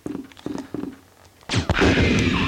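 Gunfire in a horror survival video game as hunters are shot: a few muffled thumps, then a sudden loud, sharp blast that gives way to a dense, sustained roar of noise.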